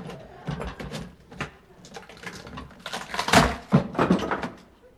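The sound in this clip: A case is opened during a customs inspection, heard as a few scattered clunks, clicks and scraping handling sounds of moderate loudness, with no talk.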